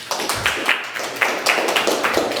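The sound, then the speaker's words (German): Audience applause as a round of clapping follows a presentation, a dense spread of hand claps over a few seconds with no talk. “Einen großen Applaus für die Mandy”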